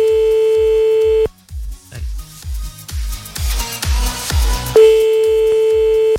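A telephone call is placed: a steady, sustained phone tone, then a stretch of rhythmic low pulses, before the same steady tone returns near the end.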